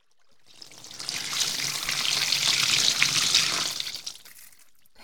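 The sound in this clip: Water runs steadily during a hair wash, a broad, bright hiss that swells in after half a second, holds for about four seconds and then tapers off, with no voices.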